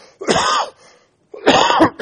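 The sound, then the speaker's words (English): Coughing and throat clearing: two rough, loud bursts about half a second each, separated by a short silence, heard alone without talk. “Excuse me. Then have a little trouble with coughing.”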